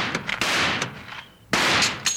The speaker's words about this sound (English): Then I can shoot this lock off. Stand back, will you, honey?